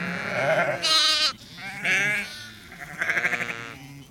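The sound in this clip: Sheep in a flock bleat in a few loud, wavering calls separated by short pauses. The last call has a rapid tremble.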